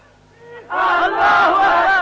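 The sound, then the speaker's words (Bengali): A crowd at a religious sermon shouts a slogan together, the mass of voices bursting in loudly after a quieter moment and holding strong in unison until the end. “এখন slogan দেওয়ার সময় নাই তো।”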